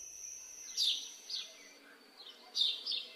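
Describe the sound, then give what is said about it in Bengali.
A few birds calling at dawn in a still, windless forest, faint high chirps arriving in two short clusters over an otherwise quiet background. “পূর্ব আকাশে ফুটে উঠল ভোরের আলোর প্রথম আভাসটুকু। দুই একটা পাখিও ডাকতে আরম্ভ করল।”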